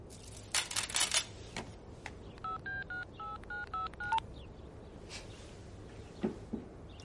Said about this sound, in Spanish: Luego mira el móvil y hace una llamada.